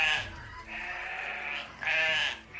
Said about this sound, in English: Right now we've got 23 lambs that have been born. We're expecting about 20 more.